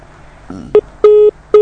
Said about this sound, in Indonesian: terputus sambungan teleponnya, dicoba kembali